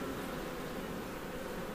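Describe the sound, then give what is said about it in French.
Caucasian honeybees buzzing at a honey production hive, a dense, steady drone with no breaks, holding an even level throughout. “Donc ici, c'est une ruche de production qui est destinée à faire du miel. Et c'est quoi comme espèce C'est euh, la caucasienne. C'est une abeille qui est rustique.”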